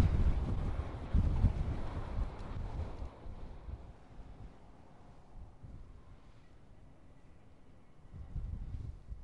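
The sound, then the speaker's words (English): Wind gusts across an open landscape where the terrain channels it. A heavy, low buffeting roar is strongest at the start, eases into a softer steady rush, then swells again near the end. “The way that this location channels the wind is really quite amazing. At one moment you can be blasted in the face”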